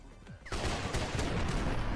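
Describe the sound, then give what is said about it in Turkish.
Pistol gunfire in a video game: a short quiet stretch breaks into a sudden loud burst, followed by sustained noisy crackle with a few sharper shot-like hits. “Tamam, silah değiştir. Tabancayla da oynayabiliriz aslında. Tabancayla gidelim.”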